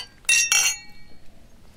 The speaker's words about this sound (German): Auf euch. Prost. Cheers. Auf die Nacht.